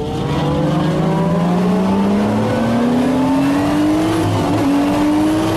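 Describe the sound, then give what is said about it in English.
Race car engines rev loudly at the start of a race in a steady, high drone. The pitch climbs gradually, dips briefly near the end and rises again. There is no talk. “we don't like it when you play race car sounds because it's a podcast”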